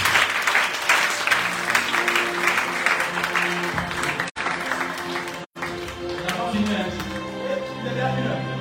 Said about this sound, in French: Acclame fortement Jésus-Christ de Nazareth.